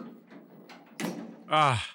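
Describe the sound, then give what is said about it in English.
A door lock gives a single sharp clunk as it comes unlocked, standing out clearly after quiet, muffled voices. “The door is unlocked and my handcuffs just opened.”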